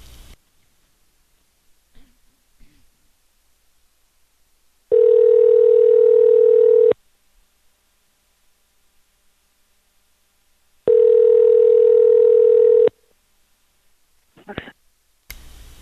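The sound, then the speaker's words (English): Telephone tones: two long, steady, mid-pitched tones, each lasting about two seconds and separated by a pause, with faint clicks near the start and the end. “Whoops. Oh my god, I just dialed Ella by accident. I hung up on her.”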